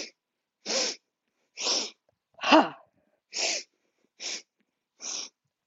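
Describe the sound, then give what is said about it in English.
Forceful 'huh' breaths pushed out through the mouth during a breathing exercise, a series of short, breathy bursts repeating at an even pace of roughly one per second with silence between them. “On the exhalation, the knees bend and the arms swing back, and you let out a huh through the mouth.”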